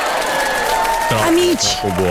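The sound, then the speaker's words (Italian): Applause played on cue before a group of listeners: a dense wash of clapping, then a man starts talking over it about halfway through. “fammi scattare un applauso”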